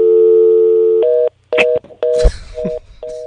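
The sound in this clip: A telephone dial tone: a steady, loud, buzzy hum holds for about a second, then gives way to a series of short, evenly spaced beeps of similar pitch with a little noise between them.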